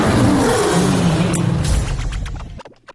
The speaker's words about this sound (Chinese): 本来觉得这个狮子叫声音挺真的啊。但是呢，刚才这声叫越听越像米高梅，不像塞伦盖蒂上 开始那套狮子。